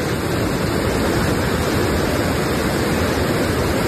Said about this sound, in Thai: น้ำยังไหลตามสปริงเวย์อยู่ยังพอประทังได้อยู่